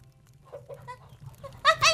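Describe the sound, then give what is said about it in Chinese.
Chickens cluck faintly at feeding time, a few short soft clucks rising to a brief louder burst of calls at the end over low background hum. “那鸡还没喂呢，奶奶去喂鸡啊。”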